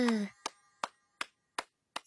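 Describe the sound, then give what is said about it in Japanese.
Slow, sparse hand clapping celebrates the birth of a new hero and saint. Five crisp, evenly spaced claps sound faintly alone, following the tail end of a spoken voice. “新しい勇者と聖女の誕生に拍手。”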